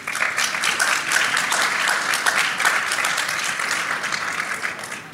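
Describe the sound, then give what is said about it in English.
Audience applause greeting a panel, a dense, steady wash of many hands clapping at even loudness throughout, fading slightly at the very end. “Let's give this panel a hand.”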